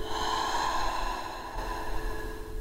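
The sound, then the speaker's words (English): Slow breathing during a guided exercise, in through the nose and out through the mouth: a soft airy inhale and gentle exhale, faint beneath a steady sustained musical drone. “In through the nose and out through the mouth.”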